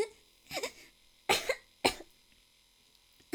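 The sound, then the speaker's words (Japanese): A person coughs a few times in short, sharp, fairly quiet bursts with pauses between them and no talk. “すいません咳出ちゃったあ”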